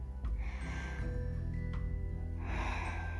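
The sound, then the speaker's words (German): A deep breath in during a guided breathing exercise: soft, airy inhaling that swells and fades in two long stretches over a steady low background tone. “Dann mach jetzt Folgendes. Atme mal tief ein.”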